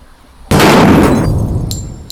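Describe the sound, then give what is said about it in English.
A single loud, sharp blast from a shot at a target bursts in abruptly and rings off slowly. Two brief, high glassy clinks follow near the end. “Take the shot. You only get one chance. I'm taking two shots.”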